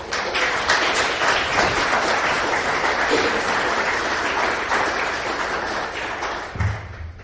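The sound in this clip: Audience applause at a lecture event, welcoming a speaker to the stage: dense, steady clapping holds at an even level for several seconds, then thins, and a few low thumps sound near the end.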